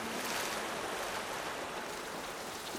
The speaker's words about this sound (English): In a dream, I sit by the shore. As the waves come in,